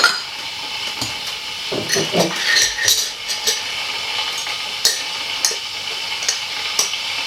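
Cups and spoons clink while organic Colombian roast coffee is prepared: several sharp clinks and scrapes, busier in the first half, over a steady background hiss.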